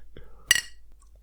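Glasses clink together in a toast, a single bright chink with a short ringing decay, set among faint soft murmurs and small handling noises in an otherwise quiet moment.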